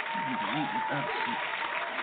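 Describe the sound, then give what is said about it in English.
Audience applause from a studio soundboard: a steady wash of clapping, muffled and band-limited, with a voice audible beneath it. “I don't like this audience clap. Let me try this.”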